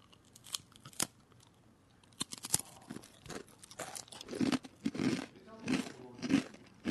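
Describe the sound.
Crunchy chewing of food being eaten, with a series of crisp bites and mouth sounds that grow louder and denser toward the end.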